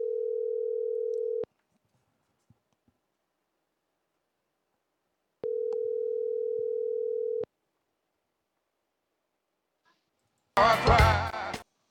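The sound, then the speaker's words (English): Phone line tone while placing a call: two steady, single-pitch tones of about two seconds each, separated by silence, then a voice briefly at the end. “So let's hit the phone because I got to call Joe on a new number.”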